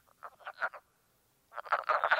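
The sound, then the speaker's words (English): Wood frogs cackle in a small woodland pool at midnight on a cold April night in New York State. Two bursts of rapid, clucking croaks are separated by a short silence, and the second burst is louder and denser. “We sit before a small woodland pool full of cackling wood frogs, their excitement muted by the chilling air.”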